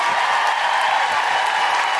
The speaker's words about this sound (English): So please give a huge round of applause